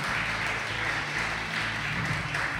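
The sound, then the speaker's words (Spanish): An audience in an auditorium applauds during a live show, dense steady clapping that holds at an even level throughout without talk. “así que pido un aplauso para Proyecto Petunia”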